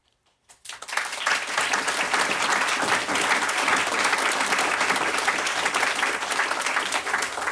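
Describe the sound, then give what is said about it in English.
A studio audience in London's Broadcasting House bursts into applause after a brief near-silent moment, then keeps up loud, dense, sustained clapping without speech. “Welcome first to our audience that you can hear here in London's Broadcasting House.”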